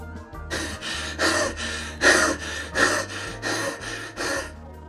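Heavy, laboured breathing of someone trudging on through space, many deep breaths in a steady rhythm, each a loud breathy rush, over a low sustained drone.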